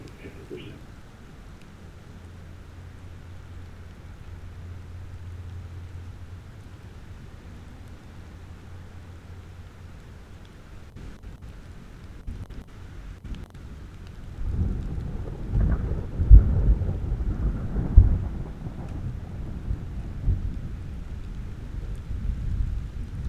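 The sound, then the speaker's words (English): A thunderstorm in Utah captured with Sound Professionals binaural microphones: soft rain hiss and a low hum at first, then a deep rolling rumble of thunder swells in the latter half with a couple of sharper, louder cracks. “And it's obvious we don't have very big thunderstorms over here in Utah.”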